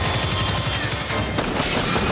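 Rapid gunfire from an alien-themed, four-player co-op video game trailer: a loud, dense barrage of shots with fast low thuds early on, continuing without pause to the end.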